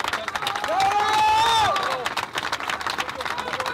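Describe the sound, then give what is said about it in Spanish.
A crowd cheers and claps as a final tribute to a fallen comrade. A long, sustained shout rises and falls early on over the din, then dense clapping and crowd noise carry on, loud and continuous. “aquí nuestro compañero le queremos hacer nuestro último homenaje y un aplauso para Alejandro”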